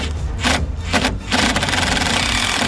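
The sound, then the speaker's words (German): A cordless screwdriver drives the last screws into wood, giving a steady grinding whir with a rough rubbing edge and a couple of brief dips before running continuously to the end. “Wir haben jetzt die letzten Schrauben. Du hast den Akkuschrauber parat?”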